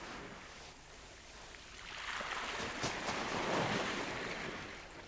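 Small ocean waves washing onto a shore make a soft, broad hiss of moving water that swells noticeably louder about halfway through, holds, then eases a little toward the end.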